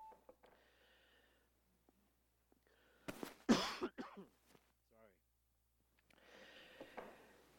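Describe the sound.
A harsh burst of coughing and throat clearing, loud against a quiet background, set between short stretches of soft speech.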